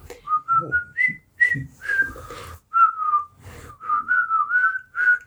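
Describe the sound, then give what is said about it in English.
Someone whistles a cheerful tune while walking along: a bright, clear melody of many short notes that step up and down, with brief pauses between phrases and no talk. “I start whistling.”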